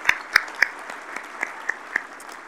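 Applause from an audience welcoming a player from a Bison football team that reached deep into the playoffs: scattered hand claps with a few sharper, louder claps standing out from a steady patter.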